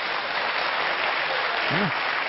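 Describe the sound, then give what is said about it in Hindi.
Audience applause at a spiritual Raja Yoga gathering: dense, steady clapping fills the whole clip at an even level, with no clear breaks or single claps standing out. “भाई तालियां तो बजाइए।”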